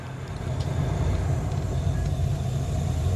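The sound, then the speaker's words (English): Low, droning machine rumble of a generator or boiler running again, a steady, heavy hum with faint tonal whine above it that holds at a near-constant level throughout. “some kind of generator or boiler kicks back in”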